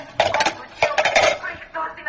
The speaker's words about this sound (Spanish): Deja los platos, mamá. Ya recojo y friego yo.